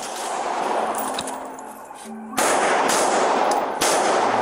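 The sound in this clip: Gunshots as an officer fires on a gunman inside a bank: a couple of sharp, loud reports break through a noisy, rumbling background.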